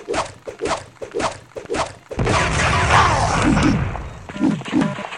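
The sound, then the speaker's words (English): Modded axe strikes in a video game: a quick run of heavy, punchy thunks, then a longer crashing, smashing burst, followed by a couple more solid hits. “Axe. Let's go and get the axe. We just did. I'm using the mod, of course, because normal game sounds really suck.”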